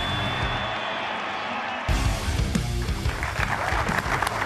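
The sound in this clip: The live studio audience of the BYU Football show in Studio C, Provo, Utah, breaks into loud applause and cheering, which bursts in suddenly after a short quieter stretch and keeps going.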